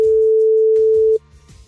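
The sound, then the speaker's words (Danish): Ringback tone of an outgoing telephone call: one steady, mid-pitched tone that holds for just over a second and then cuts off, leaving a faint low background underneath. “Og jeg ringer nu til en, der har sendt en sms med det korrekte svar.”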